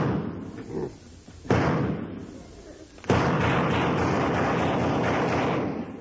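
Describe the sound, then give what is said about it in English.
Two heavy gunshot blasts aimed at a fly crawling on a wall, the second opening into a long, roaring, crumbling rumble that holds steady before fading. “Just to show you what kind of a shot I am, you see that fly crawling up the wall over there? Watch this.”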